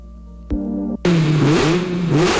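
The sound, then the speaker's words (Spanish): Ferrari car engine revving: a brief steady engine note gives way to loud, sustained revving whose pitch wavers up and down, with no voices. “Creo que ese es el caballino rampante, no el Dacia.”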